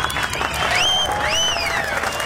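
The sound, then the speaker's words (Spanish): Applause from a crowd for a sound operator and producer, a dense steady clatter of many hands lasting about two seconds, with whistle-like tones gliding up and down above it. “Un aplauso para el operador, para el productor.”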